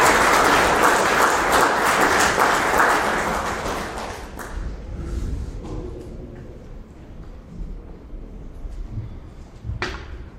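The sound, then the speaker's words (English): Audience applause welcoming a guest preacher to a church on his birthday: loud, steady clapping for about four seconds, then fading away into quiet with a few scattered claps. “So can you give him a hand and welcome him?”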